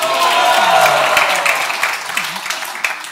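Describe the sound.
Audience applause at a temple festival welcoming devotees: dense, steady clapping that holds loud for about three seconds, with faint voices mixed in.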